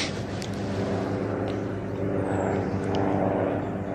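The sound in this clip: An aircraft flies over a cemetery, making a steady, fairly loud engine drone that holds without a break and swells slightly toward the end.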